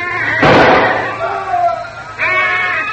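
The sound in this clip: A single loud gunshot cracks out in a firefight across a pasture with jackfruit and coconut trees. The sharp burst decays quickly, and speech comes before and after it.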